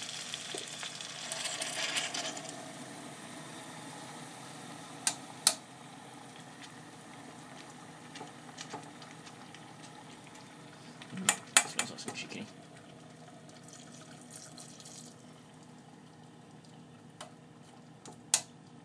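Stock cooking in a pot with a quiet, steady sizzle and bubbling, broken by a few sharp clinks of a spoon against the pot as it is checked.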